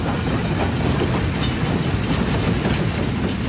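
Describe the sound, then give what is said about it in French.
A special train entering a station in 1918, with a continuous loud rumble and steady clickety-clack of wheels on rails, no voices. “le train spécial du maréchal Foch entre en gare de Compiègne, au nord de Paris.”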